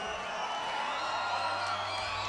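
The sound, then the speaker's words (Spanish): Crowd applause and cheering for a swing dance couple at a rock and roll dance night, a faint, even wash of clapping and crowd noise throughout. “Un aplauso.”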